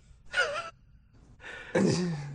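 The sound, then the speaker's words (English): A person draws a deep breath: a short breathy intake, a pause, then a longer, louder breath that takes on a voiced tone toward the end. “inhales deeply.”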